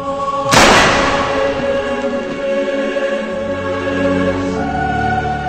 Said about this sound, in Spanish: Le disparó un tiro en la cabeza a quemarropa.